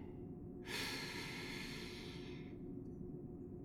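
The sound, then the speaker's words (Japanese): A deep breath comes as one long, airy hiss that swells quickly and fades gradually over about two seconds, above a steady low background noise, with no voices. “ほら、深呼吸だってできる。息を吸って、”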